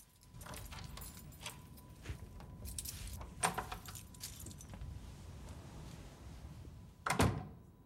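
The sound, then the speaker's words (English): Keys jangle and rattle in the lock of a hotel room door as it is unlocked, with a few soft metallic clicks, then a louder thud as the door swings open near the end. “He unlocks his room door and steps inside.”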